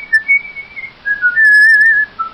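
A man whistles the Confederate anthem tune, a clear melodic line of several sustained and short notes stepping up and down in pitch, heard alone.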